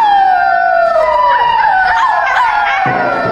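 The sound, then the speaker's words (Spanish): Wolves howl near an abandoned house on a dark, rainy day, several long overlapping cries sliding downward in pitch, loud and continuous throughout with no talk. “está lleno de lobos”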